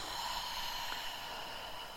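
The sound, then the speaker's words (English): A slow, deep breath out after a deep inhale: a soft, steady, airy hiss that lasts about two seconds and is heard alone at low volume. “And then when you get to the top, taking a breath in and letting it go.”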